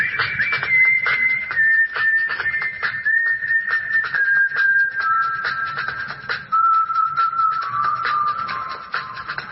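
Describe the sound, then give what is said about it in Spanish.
A person whistles a favourite song while walking, a clear, bright melody of steady held notes that drifts gradually lower in pitch, heard alone at moderate loudness. “Iba caminando, pensando y silbando mi canción favorita.”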